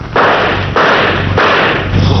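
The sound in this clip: Gunshots fired at a man fleeing toward a station: a few abrupt, loud blasts, each followed by a sustained, noisy rumble that carries on until the next shot.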